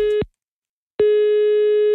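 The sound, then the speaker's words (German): A telephone ringing tone sounds while a caller dials a listener: a steady, pure mid-pitched tone whose first burst cuts off early, then a silent gap, then a second burst lasting about a second. “Und da rufe ich jetzt mal den Stefan aus Rüttenscheid an.”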